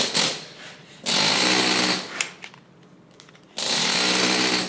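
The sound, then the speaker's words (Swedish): Rapid, buzzing rattle of a toothed chisel tooth-dressing church stone for Nikolajkyrkan, cutting a ribbed surface. It comes in a few long, loud bursts separated by quieter stretches of faint knocking. “Med det här... tandhuggning, du får ett helt annat djup och ett helt annat utseende på stenen.”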